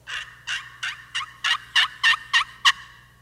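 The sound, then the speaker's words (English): Turkey hen yelps are imitated on a hunter's slate game call used to lure a gobbler: nine short, raspy, high-pitched notes in a steady, even rhythm, growing louder toward the end. “And supposedly, this is the sound of a hen.”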